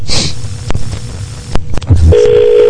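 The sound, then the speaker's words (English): Dialing a random phone number: a few sharp clicks and short bursts, then a steady electronic tone that holds to the end, fairly loud with no speech. “Let's go ahead and call random phone numbers.”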